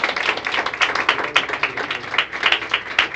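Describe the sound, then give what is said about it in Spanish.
An audience applauding during a church service: many quick, sharp claps blend into a steady, fairly loud stream of clapping with no voices over it. “Si quiere darle un aplauso al Señor, está bien, no está mal.”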